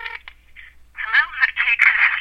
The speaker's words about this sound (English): I'm dialing.